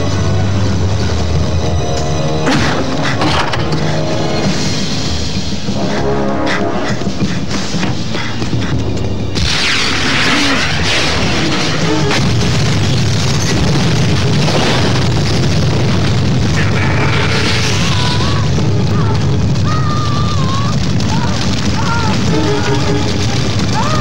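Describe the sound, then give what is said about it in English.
Shots are fired as heavy, booming bursts over a constant loud roar, growing denser and harsher partway through. Voices call out beneath the gunfire. “Also requesting help. Shots fired.”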